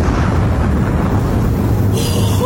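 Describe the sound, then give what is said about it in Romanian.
A bridge is blown up, producing a loud, dense roar and rumble that holds steady for the whole stretch with no distinct onset. “aruncă podul în aer. Trage sârma cu putere.”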